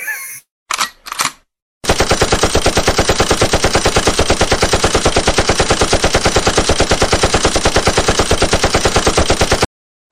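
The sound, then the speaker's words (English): Machine gun fire rings out loud, mostly as one long, rapid stream of evenly spaced shots that lasts about eight seconds before stopping abruptly. “Machine gun. Machine gun of the night.”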